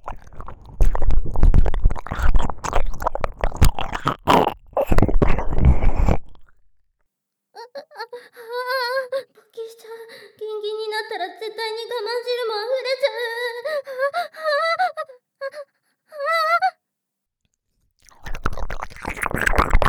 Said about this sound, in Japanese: よだれをたっぷり使った耳舐め、いいでしょ。ぐちゅぐちゅした音が間近に聞こえて興奮するわよね。